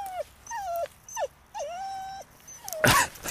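A dog whines in several drawn-out, high-pitched whimpers, some sliding downward in pitch, separated by short pauses. The whimpers are fairly quiet overall, with no talking over them.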